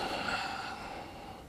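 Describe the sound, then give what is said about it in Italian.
Soft, airy breathing during a pelvic floor exercise: one long, faint breath that fades slightly as it ends. “Poi, inspirando, rilasso le gambe, rilasso l'addome, espiro. Inspiro, espiro.”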